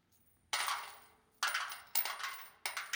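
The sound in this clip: Coins drop into a temple treasury in four separate bright, metallic crashes. Each jangling clatter rings out and fades before the next.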